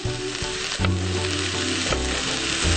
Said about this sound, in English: Okay, yeah, mix that in. Just we need to keep the stuffing mixture moist.